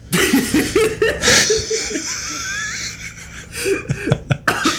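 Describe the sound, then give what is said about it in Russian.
Coughing: a few harsh, broken coughing bursts, loud and uneven, mixed with short chuckling sounds. “Я аж закашлялся.”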